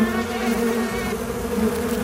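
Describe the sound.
Bees buzzing in a steady, low, droning hum that holds an even level for about two seconds, with no voices.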